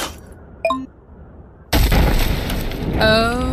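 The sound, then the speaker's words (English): Bridge breaking apart in a video game: a sudden deep boom bursts in and rolls into a sustained, loud rumbling crash, after a brief, quieter tonal chime. “Okay, that doesn't sound good. Father, the bridge. Yep. It's breaking.”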